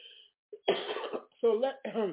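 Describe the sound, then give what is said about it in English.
A coughing attack: a few harsh coughs and throat-clearing bursts, some rough and voiced, come in quick succession with short gaps between them. “because I'm having a cough attack.”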